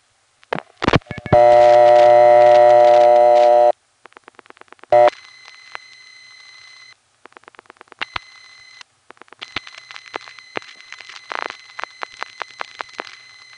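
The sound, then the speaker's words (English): A telephone number is dialed through a Number 1 crossbar exchange. A loud sustained tone is followed by clicks, short bursts of beeping signal tones and a steady tone broken by many rapid clicks. “But wait, there is a number 1 crossbar, Trafalgar 3. Let's dial it.”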